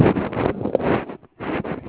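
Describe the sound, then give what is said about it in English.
Wind buffeting a phone microphone outdoors, heard over a phone line as a loud, rough, rushing roar with a short dropout near the end. “Are you outside? I hear the wind whistling by.”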